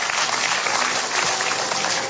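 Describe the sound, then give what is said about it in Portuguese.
A church audience claps in praise, a dense, even roar of many hands that holds at a steady loud level throughout. “Exaltem o Senhor Jesus com as nossas palmas.”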